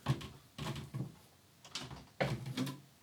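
Someone rummages through a new cupboard full of books, making a few faint bursts of knocking, shuffling and handling noise separated by quiet gaps.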